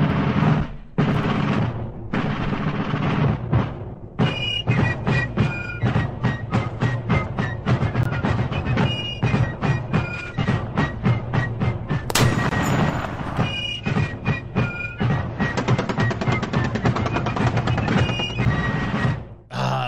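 Gunfire sound effect opening a Rapid Fire segment: many loud, rapid bursts of shots in dense volleys with brief pauses, carrying on for about twenty seconds, with some ringing tones among them.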